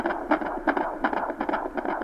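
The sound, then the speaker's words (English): Fetal heartbeat on a monitor during a non-stress test on a pregnant mother's belly: rapid, steady whooshing pulses, roughly three per second, over a constant noisy hiss, moderately loud, with no voices. “They're doing a non-stress test on the baby. The mother gently nudges her belly so they can monitor the baby's heartbeat. That's a good acceleration.”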